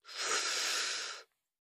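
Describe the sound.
A single deep inhale drawn during a guided breathing exercise: one steady, breathy rush of air that swells quickly, holds for about a second, then stops cleanly into silence.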